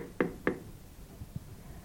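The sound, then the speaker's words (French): Knocking on a farmhouse door: two sharp, firm raps in quick succession, then a couple of much fainter low thumps. The whole clip is quiet, with no voices. “Il frappe à la porte sans hésiter.”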